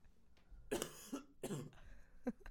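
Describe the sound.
Dry coughing from an irritated throat: a few harsh, quiet coughs come in an uneven rhythm, two stronger bursts with smaller ones between and after, and no talk.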